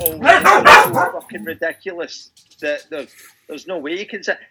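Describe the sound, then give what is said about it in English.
Excited dogs bark as someone comes home, with a loud burst of yapping at the start. Scattered yips then continue under a person talking. “that was the sound of someone else coming home and the dogs being very excited.”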